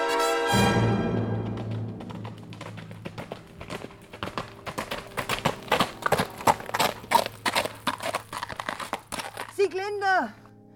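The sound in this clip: A horse's hooves clip-clop in a fast, uneven rhythm of many sharp knocks. The horse is ridden in a staged dramatisation of an opera cycle, and the hoofbeats continue steadily throughout.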